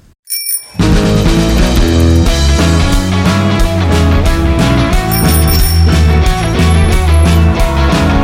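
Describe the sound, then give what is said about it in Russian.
A bicycle bell rings within a loud, rhythmic musical jingle, its bright metallic rings repeating over a steady driving beat after a brief opening sound. “А пока будьте осторожны, сейчас прозвенит велосипедный звонок.”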